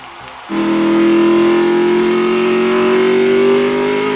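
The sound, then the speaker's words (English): Endurance race cars at the 1955 24 Hours of Le Mans. An engine drone bursts in after half a second, then holds loud and steady, climbing slowly in pitch to the end. “The world's most elite endurance motor car racers are battling for supremacy in the 1955 24 Hours of Le Mans.”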